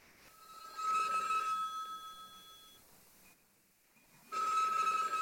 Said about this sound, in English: Oh, someone's calling in. Mystery caller.